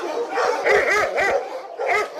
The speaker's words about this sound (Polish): Wszystkie na nas szczekają. Wiedzą, że ktoś przychodzi zobaczyć psa i oni tak zwracają na siebie uwagę